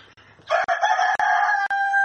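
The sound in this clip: A rooster crows loudly in one long, sustained call, broken by a few brief dropouts, while chickens are herded back into their coop.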